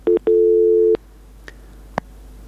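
Telephone line tone after a dropped call-in: a brief steady beep, then a longer held mid-pitched tone of under a second, followed by silence and two faint clicks.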